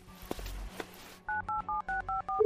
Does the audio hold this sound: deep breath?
no